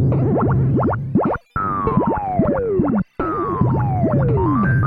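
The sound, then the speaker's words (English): Springs bouncing across a video game platform give out bright, springy boing tones, repeating with little pause and ending in long falling glides, loud and clear with no talk over them. “the real threat in this stage is the springs that bounce across the top of the platform and fall to the bottom of the screen.”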